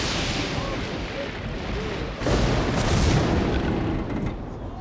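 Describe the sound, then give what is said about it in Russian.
A lightning strike splits a pagan idol in an animated film: a loud booming crash breaks in partway through over an ongoing dense roar, and the rumble stays heavy afterward. “Ударившая молния раскалывает идол Перуна.”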